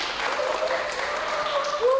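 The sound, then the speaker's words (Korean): Applause welcoming a humanoid robot as a new company employee: steady, dense clapping throughout, with voices talking over it. “6월 1일 입사한 우리 친구 로봇 휴머노이드 유니온에게 큰 박수 부탁드립니다.”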